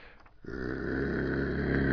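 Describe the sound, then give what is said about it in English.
A man imitates a menacing dog growl with a low, rough, gravelly rumble that begins after a brief pause and holds steady and sustained to the end, with no other voice. “so I should give you the demon dog growl.”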